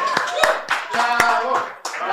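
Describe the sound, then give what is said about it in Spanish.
Hands clapping during a casual conversation: a few sharp, separate claps mixed in with people talking. “Ay, no van a aplaudir estos cabros. Aplaudo, pero da pena que...”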